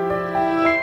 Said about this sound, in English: That's the sound of the Verbum Library launching up.